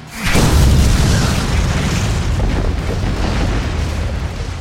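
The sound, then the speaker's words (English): Colliding blasts of magical energy erupt in a deep boom that hits suddenly, then settles into a loud, sustained low rumble that carries on for several seconds without easing. “This divine radiant energy fires off from Palgrith, meeting at the center. This eruption happens.”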